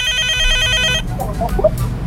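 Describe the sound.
A telephone rings with an incoming call, a loud electronic ringtone of rapidly repeating bright tones that plays for about a second and then stops, leaving faint scattered sounds.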